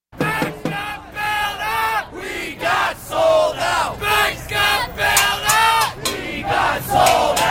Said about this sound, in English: Fall of 2011, thousands camped out in New York's financial district, Occupy Wall Street. Here's some of that sound.